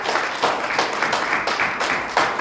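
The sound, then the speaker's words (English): A church audience clapping hands together in time, a steady rhythmic pulse of many hands repeating at an even pace across the whole stretch, with no speech on top. “Come on, let's clap our hands to Jesus.”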